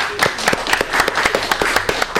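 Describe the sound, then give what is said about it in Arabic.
Studio audience clapping for a contestant on a quiz show, with sharp, distinct hand claps in a fairly even, rapid rhythm at moderate volume. “للأسف إجابتكم صفقوا له. أما برافو يعطيكم الصحة.”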